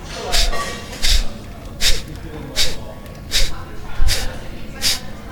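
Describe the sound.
Seven quick, forced exhales through the nose, driven by the diaphragm as a breathing exercise. Sharp, airy puffs come in an even rhythm, each short and followed by a brief pause.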